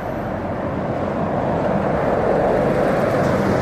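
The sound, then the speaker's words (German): A large Friesland Campina milk tanker truck overtakes a cyclist on a road at night, giving a steady broad roar of engine and tyres that swells slightly as it passes, with no voices. “Ja, Friesland Campino, eingetragene Marken, äh, hat mich gerade überholt. Ein riesiger Milchlaster, hoffe ich mal.”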